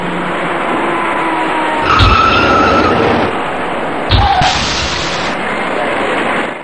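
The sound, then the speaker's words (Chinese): A white passenger car accelerates without braking and rear-ends the car ahead in slow traffic on a city ring-road overpass. Two sharp impact thuds break through a loud, steady roar of road noise. “行驶中这辆白色小客根本没有减速的迹象，相反司机一路给油，直愣愣地追了上去，毫无防备的前车遭受了突然撞击。”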